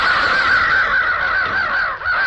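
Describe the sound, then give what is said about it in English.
Ravens cawing as a flock takes off together: a dense, continuous chorus of harsh, overlapping caws, loud throughout, with a brief dip near the end. “I dropped suddenly in the ground as a cloud of giant black scavenger birds erupted from everywhere. Ravens!”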